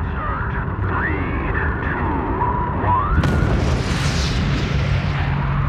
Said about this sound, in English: When the solid rocket motors light, 7 million pounds of thrust absolutely gets your attention.